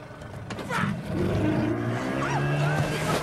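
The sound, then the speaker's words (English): A small motorboat reverses on a river, its engine giving a steady, loud drone that swells and stays strong after the first second. “quickly reverses the small boat backwards”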